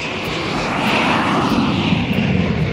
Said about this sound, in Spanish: Sucedió en un vuelo entre Johannesburgo y Londres. El avión listo para partir.